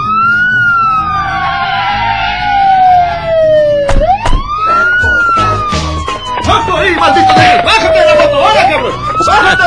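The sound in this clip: A police patrol car siren wails loudly, its pitch sweeping slowly up and down in long, repeated cycles, with some voices mixed in beneath it.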